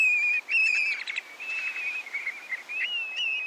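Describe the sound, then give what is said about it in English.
A male black-bellied plover gives its flight song while circling overhead at its Arctic tundra nesting grounds: clear, high, slurred whistles in repeated phrases, fairly faint and alone. “black-bellied plovers make their way north along both the Atlantic and Pacific coasts. Many settle into the Arctic National Wildlife Refuge to nest on the tundra. Here, a male circles overhead while giving its flight song.”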